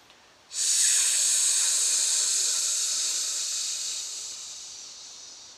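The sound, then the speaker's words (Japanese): A full breath pushed out through the mouth during an abdominal breathing exercise, a loud airy hiss that starts abruptly and then tapers slowly over about five seconds. “それをちょっともう一度感じながらもう一度やってみましょう息を全部口から出しましょ”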